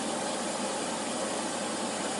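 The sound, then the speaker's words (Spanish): Water rushes into a washing machine as it fills before starting, a steady, even hiss with a faint low hum that holds unchanged throughout. “Hace esa comunicación del agua a la lavadora, ese sonido característico. Ahí. Y esperamos a que arranque.”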